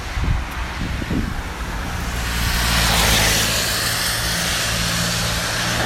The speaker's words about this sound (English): a guy just drove past and flashed his lights at me.